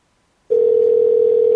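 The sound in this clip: A telephone ringback tone plays while a call is placed. After half a second of silence, a steady single-pitched electronic tone starts abruptly and holds evenly to the end.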